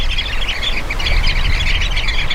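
Loud, dense chirping and squawking from a sociable bird that gathers in large flocks. Many overlapping calls run continuously without pause.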